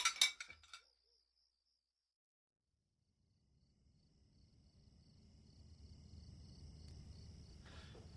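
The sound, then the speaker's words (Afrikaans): Faint clinking of dishes being washed up, a short cluster of clinks at the start, then near silence and a soft low wash of noise that slowly rises, with a thin high chirping above. “Kom, ek help jou gou om die skottel goed op te was.”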